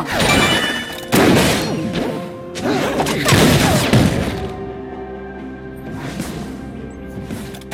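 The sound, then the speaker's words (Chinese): Bombs exploding in a video game: a few loud, crashing blasts in quick succession, then a rumbling tail that fades out over the last seconds. “头上扔炸弹！干掉他们！”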